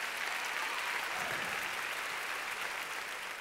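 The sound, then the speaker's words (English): Sustained clapping from an audience during a religious sermon, dense and steady for the whole stretch, with no single claps standing out and no voices on top. “Clap your hands like you're coming back. Come on.”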